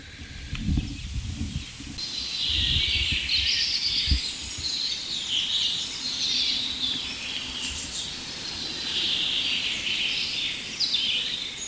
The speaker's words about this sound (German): dem ersten Buchfink. Und wir werden uns mal von Fink zu Fink hangeln und gucken, was wir aus diesem Richtmikrofon rausholen können, technisch.